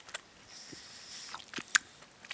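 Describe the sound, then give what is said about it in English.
Close-up chewing of something grape-flavored: faint, scattered wet clicks and soft crunches, with one sharper click standing out. “I'm really chewing close.”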